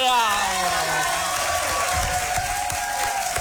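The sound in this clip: Audience applause, an ovation, as a steady, loud wash of clapping that fills the whole stretch without a break. Faint tonal traces sit underneath it.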